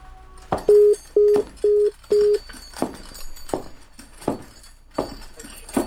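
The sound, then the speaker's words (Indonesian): A telephone being dialed on a rotary line: four short, even electronic tones sound in a row, followed by a series of sharp, evenly spaced clicks. No voices are heard. “Coba sambungkan teleponnya ke Bandung. Sudah. Ini sudah saya putar kode jalur.”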